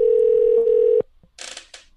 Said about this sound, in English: Can we dial into the room?